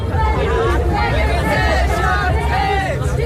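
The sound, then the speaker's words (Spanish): Crowd noise at a protest in Berlin against rising housing prices: a steady, dense babble of many voices over a low rumble, continuous without pauses. “Este es el sonido de una de las recientes protestas en Berlín por el aumento del precio de la vivienda”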